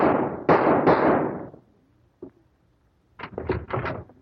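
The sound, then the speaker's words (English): Gunshots crack out in a few sharp, booming bangs in quick succession, followed by quieter knocks and thuds after a short lull. “Kit. I just shot Dr. Scott.”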